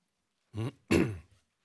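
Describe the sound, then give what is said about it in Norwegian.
Throat clearing in two rough, gravelly bursts, the second stronger and longer than the first, heard alone between stretches of silence. “Beklager kremtingen.”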